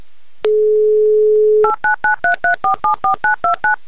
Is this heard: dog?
no